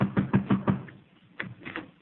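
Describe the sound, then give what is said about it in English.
Knocking on a door: four evenly spaced, moderately loud raps, then after a short pause a few fainter knocks. No voices are heard. “go ahead. Knock on the door.”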